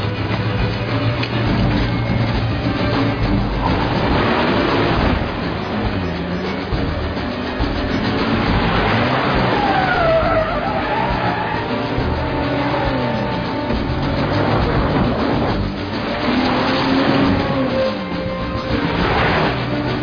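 A car engine drones steadily as it is driven, loud and continuous throughout, with its pitch shifting up and down as the revs change.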